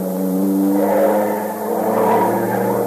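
A car engine pulls away in pursuit of fleeing suspects, giving a steady, loud mechanical hum with a brief dip midway before it holds strong again.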